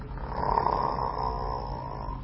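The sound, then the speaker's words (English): A voice imitates the snoring of a drunk person with a low, rough, rumbling drone. It is faint and continuous, swelling slightly and then easing off over about two seconds. “and they usually snore like that as well. Sound very, very silly indeed.”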